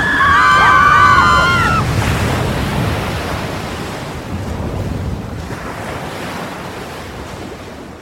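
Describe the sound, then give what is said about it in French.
Sea waves surging around a sinking boat, a loud broad wash of surf and wind-blown spray that swells at the start and slowly ebbs, with a brief high whistling tone in the opening seconds. “Le bateau coule. C'est une catastrophe. Calmez-vous. Ce n'est qu'une petite vague.”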